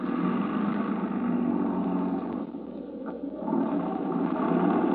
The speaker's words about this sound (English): All right, now put it in gear. Start it rolling and jump.